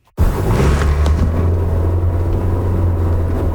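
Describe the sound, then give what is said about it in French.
A car drives along a boulevard, its loud, continuous low engine and road rumble starting abruptly after a brief moment of silence and holding steady throughout. “Je circule actuellement sur le boulevard Talbot en direction de la Terrière.”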